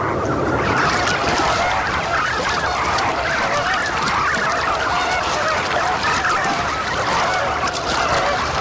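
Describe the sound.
Dense, continuous honking calls from many birds as a parent greater flamingo returns with food for a chick that cannot yet feed itself; the loud, goose-like chorus carries on steadily without a break.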